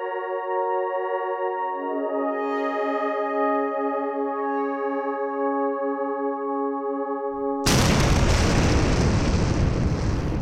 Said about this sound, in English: That was the sound of my mind exploding.